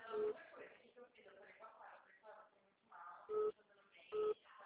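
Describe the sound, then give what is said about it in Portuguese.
An electronic telephone ringtone signals an incoming call with three short, bright tonal bursts over ongoing talk, one near the start and two close together near the end. “Ai, meu Deus, uma ligação.”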